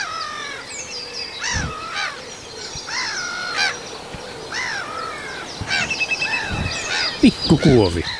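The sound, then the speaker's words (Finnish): Harsh, raspy calls of a black-headed gull flying over repeat many times, loud and uneven, with other bird calls mixed in throughout. “Mutta nyt menee naurulokki tässä yli.”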